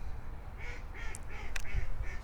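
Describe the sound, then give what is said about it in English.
Ducks quacking amid wild ducks and geese during a chase, a steady series of nasal, moderately loud quacks repeating at a quick, even pace with no talking over them. “There's some more good quacks. Quack, quack, quack, quack, quack.”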